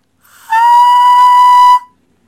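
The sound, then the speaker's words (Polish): A single high B5 note sounds with a pure, whistle-like tone and faint overtones. It swells in quickly, holds loud and steady for over a second, then stops cleanly into silence. “Jak brzmi H dwukreślne? No faktycznie, jest to wysoki dźwięk.”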